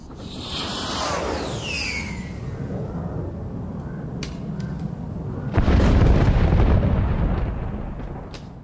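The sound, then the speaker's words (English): Heavy weapons fire and explosions in battle near Kherson: a dense, roaring rumble with a falling whistle early on, then a heavy boom that swells the noise before it slowly fades. “The orcs are firing everything they've got.”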